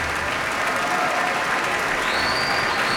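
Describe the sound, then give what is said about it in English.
A concert audience in the Koussevitzky Music Shed rises for a standing ovation as the artists and conductor bow. Loud, dense clapping continues throughout, and a sustained high whistle cuts in near the end. “All of our artists bowing towards the audience, with conductor Ken David Mazur as well. And this audience in the Koussevitzky Music Shed on its feet with a standing ovation, and it looks like there is an encore.”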